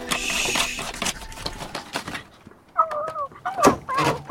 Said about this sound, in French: Écoute. Oh, là, un hibou. Ou une chouette.